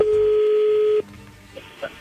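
Telephone line tone as a call is dialed: a single steady, mid-pitched tone holds for about a second, then stops abruptly, leaving a few faint clicks and no talk.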